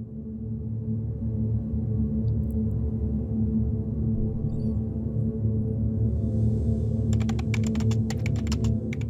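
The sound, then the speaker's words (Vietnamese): Keys clatter on a Samsung laptop keyboard in a rapid cluster of clicks near the end, above a steady low droning tone that runs through the whole stretch. “Quỳnh Lan vẫn đang ngồi miệt mài gõ phím. Cái laptop mang thương hiệu Samsung,”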